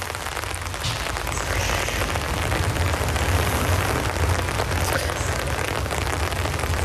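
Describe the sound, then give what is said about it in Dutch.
Steady rain falling at a graveside, a dense, continuous patter that holds an even loudness throughout, with no talking. “Sta ik dan in de regen?”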